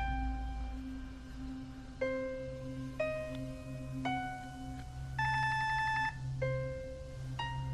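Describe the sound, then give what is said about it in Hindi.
A telephone plays a melodic electronic ringtone: a steady run of clear beeping notes that step up and down in pitch, repeating at an even pace with no voices. “Phone उठा ले, जानता हूँ कि आप घर में हैं। Phone उठा ले।”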